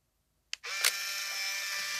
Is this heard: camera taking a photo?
yes